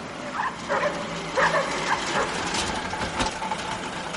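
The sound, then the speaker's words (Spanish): Several dogs barking and yipping as they chase a battered truck into a small village, a few sharp barks rising over a low engine rumble. “El destartalado camión llega a un pueblecito y nada más entrar, varios perros lo persiguen.”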